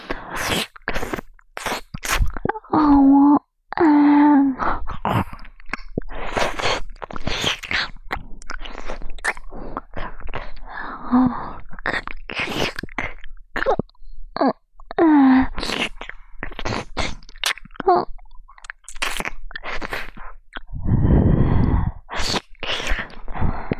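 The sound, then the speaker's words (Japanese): Wet ear-licking sounds play in a loud, steady stream of many slurps, smacks and mouth clicks, with occasional soft moaning voice tones woven through. “ほら、あなたのお好きな耳なめです。”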